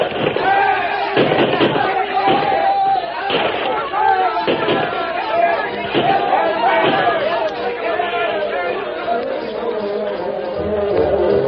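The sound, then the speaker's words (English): A volley of gunshots rings out in a radio drama battle as pioneers fire on a charging band of riders. Sharp, loud cracks land at irregular intervals amid a dense bed of shouting and crowd noise. “The first volley from the white men sent a dozen spilling from the saddles, but the rest charged on.”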